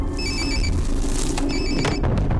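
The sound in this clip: A telephone rings in two short bursts of thin, warbling electronic tones over a constant noisy background, with a pause between the bursts.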